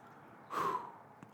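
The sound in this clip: A single deep breath taken during a pause in a spoken prayer, heard as a soft, brief airy rush under half a second long, faint and alone.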